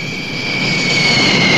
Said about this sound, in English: The plane comes in to land.